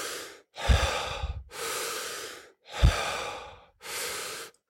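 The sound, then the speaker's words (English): Deep, forceful breaths during a transformational breathwork session, done lying down: loud, airy breathing in a steady rhythm, with a string of strong breaths separated by brief silent gaps. “My first time doing transformational breath, and that's that two inhale, one exhale, or just like just breathe. It's like a super deep inhale.”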